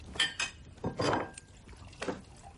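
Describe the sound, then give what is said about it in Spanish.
Clinking dishware as a plate is filled from a cauldron at a hearth: a few sharp taps and chinks around a short scraping, ladling stretch, with no talk. “Caris llena un plato del caldero que hay en el hogar”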